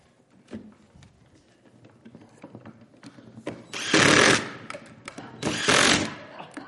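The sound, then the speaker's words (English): Screws are driven in a speed race with a power driver, which gives two loud bursts of whirring after a stretch of quieter clicks and knocks. “We're going to see who can drive the screws down the fastest.”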